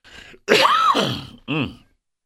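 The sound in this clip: Rough throat clearing after inhaling sanitizer spray, a few strained, groaning rasps with one long voiced clearing in the middle and a short final grunt.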